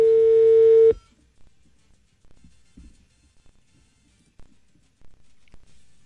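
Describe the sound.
A telephone tone sounds after a call is hung up: one loud, steady, single-pitched beep lasting under a second, then near silence broken only by a few faint clicks.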